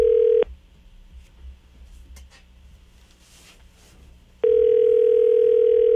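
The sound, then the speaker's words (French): Ringing tone on a call to a mobile number in France. A steady, single-pitch tone cuts off, faint line hiss fills a long gap, and then the same tone starts again. “C'est à voir si le numéro de cellulaire est toujours bon. Oh, OK, ça sonne.”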